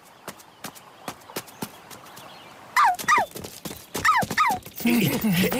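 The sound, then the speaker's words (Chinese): Frenzied dog barking, a run of sharp yelping barks that grow louder and more frequent toward the end, preceded by a series of quick dry taps. “花花狂吠不止，似乎在诱导他们说：“来呀！””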